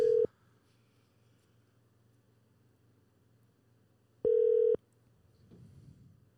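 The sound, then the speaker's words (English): A telephone line ringing through to voicemail: two steady, mid-pitched ring tones several seconds apart, separated by quiet line hiss, with faint low noise near the end. “I'm going to leave him a fucking standard issue B-Graph voicemail.”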